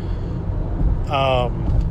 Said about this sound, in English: I should say I am in my car driving